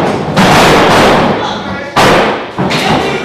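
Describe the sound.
A wrestler is slammed down in the ring with heavy, loud thuds. Three impacts hit hard, each one ringing out before it fades, with voices in the background.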